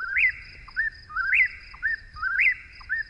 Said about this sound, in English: So the song of the whippoorwill in this modern recording,